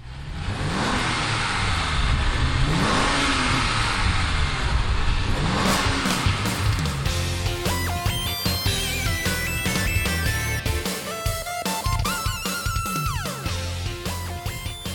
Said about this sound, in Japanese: これがエンブレですねはいはいポルシェのはい